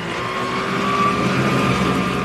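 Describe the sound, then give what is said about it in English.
A motorboat engine thrums on the Colorado River over churning blue-green water. It is a loud, steady, low drone with a rough wash, holding constant throughout with no clear change in pitch. “Back on the Colorado River, as blue-green water churns under the thrum of a motorboat”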